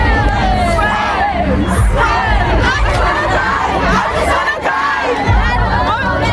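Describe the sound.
Crowd of fans outside a Munich concert arena before a concert, many voices singing and shouting together in a loud, continuous, ragged chorus with excited cries mixed in.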